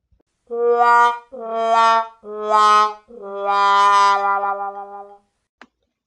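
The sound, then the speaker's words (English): A "womp" sound effect of disapproval: four brassy, wobbling tones that step downward in pitch, the last one long and drawn out, heard alone. “It is at this moment I have to give Penn State the womp of disapproval.”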